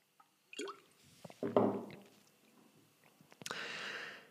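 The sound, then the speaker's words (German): Someone takes a sip of a drink, a few faint, wet mouth clicks and gulping swallow sounds spread unevenly over a few seconds. “Sekunde, Schluck trinken.”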